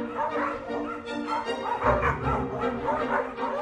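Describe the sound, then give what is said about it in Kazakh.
Dogs bark and yelp excitedly while chasing a fox, a dense, continuous stream of overlapping high-pitched calls that stays loud throughout. “Түлкі бұқпантайлап қоршауға жақындайды да иттер оған қуа жөнеледі.”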